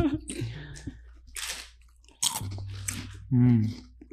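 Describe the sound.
Crunchy chewing of a yuzu and black pepper flavored shrimp chip, with a few sharp bites and crunches breaking in between people talking.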